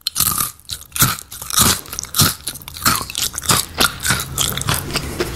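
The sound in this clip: Crisp, dry crunching as someone bites and chews coconut-sprinkled crackers: many sharp, irregular crunches in quick succession, heard alone without talk.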